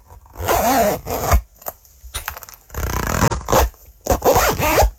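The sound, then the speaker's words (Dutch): Zippers being closed, a quick series of several rasping zip strokes in uneven bursts, some short and some longer, with brief pauses between them and no voices. “Het dichtdoen van ritsen.”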